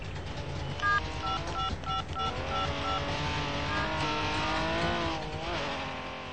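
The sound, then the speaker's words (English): Engine noise from a Porsche and a Trabant car arriving: a steady motor drone with wavering, revving pitch, joined early on by a run of short electronic beeping tones. “The Porsche only arrives and the Trabi is already there.”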